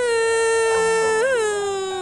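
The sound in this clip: A girl cries in one long, loud, continuous wail, held at a fairly steady pitch with a brief upward wobble partway through before tapering slightly.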